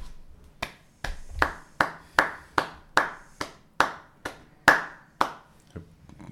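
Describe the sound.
Slow hand clapping by one person, many separate sharp claps at a fairly even, unhurried pace, each followed by a short ringing decay, with no talk over them.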